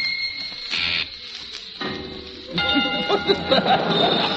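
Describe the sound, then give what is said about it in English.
A dinner bell rings with bright, sustained metallic tones, quieter at first, then fuller and louder with overlapping ringing partials in the second half. “Just as the dinner bell rings.”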